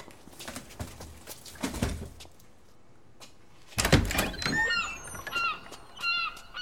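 A door is opened at a lightkeeper's dwelling: a few soft knocks and thuds come first, then after a quiet gap a louder clunk, followed by a run of high, squeaky creaking tones.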